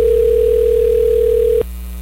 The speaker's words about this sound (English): All right, Eric, let's do this. Let's make a phone call.